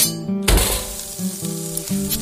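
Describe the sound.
A house-cut hotel sirloin steak sizzles in a steady, fairly loud frying hiss that swells sharply after a brief opening and then carries on continuously over a low tonal hum.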